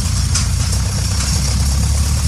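A tractor tows a manure spreader out to the field, its engine giving a loud, steady low rumble with a faint rattling texture and no change in pace.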